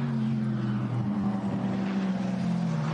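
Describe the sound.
Steady droning engine of the race leader's rally car on a stage near a right-hand bend, a constant low hum with layered harmonics holding an even level throughout, without voices.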